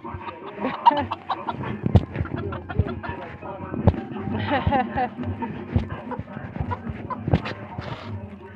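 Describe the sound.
A male chicken known for attacking people clucks in many short, irregular bursts, with a voice running underneath throughout.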